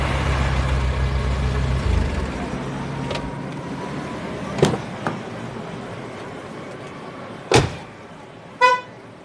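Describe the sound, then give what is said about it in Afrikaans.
A brand-new car's engine rumbles low for a few seconds and then cuts out. A few sharp knocks follow, and a short, bright horn toot sounds near the end. “Die motor is so goed so splinternuut.”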